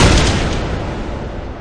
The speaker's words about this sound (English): Ross Sutton and Clement and Pete Carlin ran out into the street, guns blazing at the posse members. John and Bull lifted their rifles with tears in their eyes and sighted on their outlaw sons.